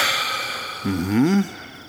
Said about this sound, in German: Einatmen. Ausatmen. Einatmen. Ausatmen.